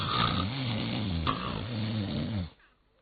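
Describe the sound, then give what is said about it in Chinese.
A voice imitates loud snoring with two long, rumbling, throaty snore breaths one after the other, then falls silent. “程大爷大松心，嘿，这呼噜打得震天响”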